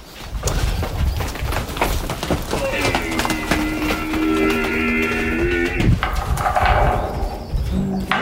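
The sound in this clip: Horses run through an opened gate toward their feed, hooves clattering in a busy, uneven patter, while a long sustained tonal call sounds over the middle of the run.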